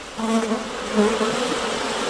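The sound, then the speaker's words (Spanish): A fly buzzes through a sleepless night, a steady droning hum with a slightly wavering pitch, heard alone and fairly loud for about two seconds. “Isa Kobayashi, en el siglo XVIII, atrapó la experiencia sencilla pero profunda del zumbido de una mosca en la vastedad de una noche de insomnio.”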